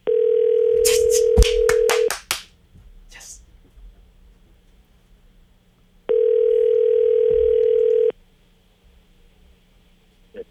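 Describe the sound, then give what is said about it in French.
A telephone rings on an outgoing call. Brief clicks come first, then two long, steady, single-pitch ring tones of about two seconds each, separated by a pause. “Oh, il sonne.”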